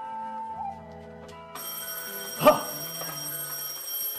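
A telephone bell rings with a bright, sustained electric ring that starts partway through over a quieter, steady tonal background, with a brief louder burst near the middle.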